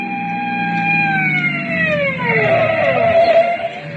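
A police car siren wails loudly, its pitch sliding steadily downward and then sounding again, over a low, continuous vehicle rumble as a speeding driver on wet roads is pulled over.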